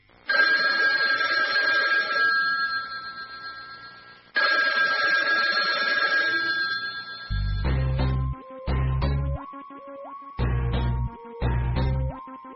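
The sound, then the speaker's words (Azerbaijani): An ordinary telephone ringing: two long, bright electronic ring bursts, then a few shorter, pulsed buzzing tones with a low hum, loud and alone with no talk. “Adi telefon zəngi, amma bəziləri üçün bu səs nəsə qorxulu və dəhşətli şeydən xəbər verə bilər.”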